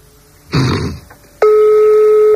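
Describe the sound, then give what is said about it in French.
A steady telephone line tone, one held beep lasting about a second, sounds while a private number is dialed; a short rough burst of noise comes just before it. “on est en train de faire un autre numéro d'un particulier, ça décroche”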